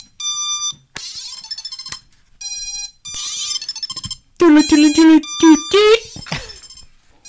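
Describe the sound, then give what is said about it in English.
A handheld electronic device plays its startup sound: a few bright, buzzy tonal bursts with short gaps between them. A louder warbling melodic phrase follows and ends on a brief higher tone. “It's got this classy startup sound. I don't have a battery in mine.”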